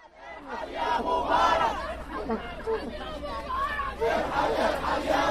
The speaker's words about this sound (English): A couple hundred protesters gathered outside the Egyptian embassy there in D.C. Their chants very similar, in fact, almost word for word to those we heard half a world away.